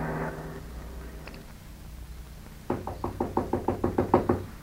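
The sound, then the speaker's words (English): Knocking on a door: after a quiet stretch comes a rapid run of many sharp, evenly spaced raps that grow slightly louder toward the end. “But when I heard that knock on the door,”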